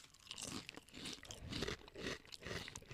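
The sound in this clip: Dry dragon-tongue crispies cereal is chewed without milk, giving many crisp crunches in a steady chewing rhythm. The crunches are faint and heard alone.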